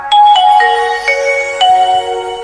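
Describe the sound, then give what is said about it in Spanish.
A mobile phone switching on plays a short electronic startup melody: a few clear, stepped tones in sequence, bright and fairly loud, with no talking over them. “voy a encender mi móvil.”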